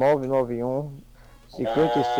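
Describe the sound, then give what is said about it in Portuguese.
A farm animal bleats loudly in two long, wavering, sheep-like cries, one at the start and one at the end, with a quieter gap between them. “o bicho tá berrando mesmo”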